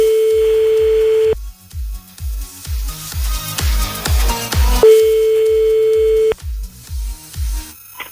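A telephone ringback tone plays after dialing: two long, steady pure tones separated by a gap of a few seconds, over a regular low pulsing beat that runs throughout.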